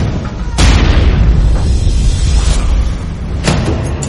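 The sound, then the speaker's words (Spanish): Bombs detonating at archaeological sites: a deep, continuous roar of explosions, with sharp booming blasts breaking through a sustained low rumble, loud throughout. “destruyen sistemáticamente reliquias históricas y detonan bombas en varios yacimientos arqueológicos.”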